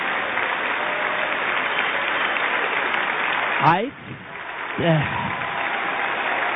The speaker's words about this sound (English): Pictures of veterans, of course, and the audience cheering and talking.